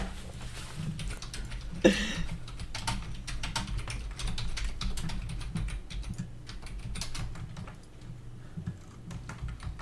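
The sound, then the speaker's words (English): Typing on a computer keyboard to send a message in a Discord chat, a steady stream of light clicking keystrokes over a low hum, with one sharper louder tap early on and no voices. “Don't say it again, dude. Just type it on our Discord chat.”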